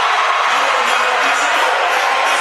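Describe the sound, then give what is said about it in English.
A loud, sustained roar from a basketball crowd during a timeout late in a close game, a dense, unbroken wall of cheering voices. “Timeout. Coach Powell and the crowd roars.”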